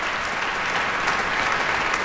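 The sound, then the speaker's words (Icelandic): A concert audience applauds a soloist, many hands clapping in a continuous, even roar that stays at a constant strong level throughout, with no speech over it. “hér er hún að sjálfsögðu vel fagnað”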